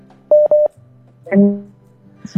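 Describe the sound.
Telephone redialing tones after a dropped call: a few short, steady electronic beeps in quick succession, followed by a brief voice and a faint low hum.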